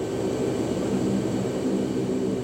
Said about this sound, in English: The giant door of the plane opens, sunlight gushes in. The aid parcels drop one by one.